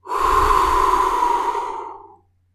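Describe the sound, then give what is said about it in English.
A single slow, calm breath gives a soft, airy rush that holds steady for about two seconds, then tapers away into silence. “One approach is just to count, you know, 10 slow, calm breaths. In, hold, out.”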